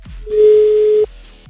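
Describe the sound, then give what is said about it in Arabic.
A telephone ringing tone sounds during an outgoing call: a single loud, steady, pure electronic tone that holds for under a second and then cuts off. “خلينا نشوف، يا رب يرد. عم اتصل بحازم”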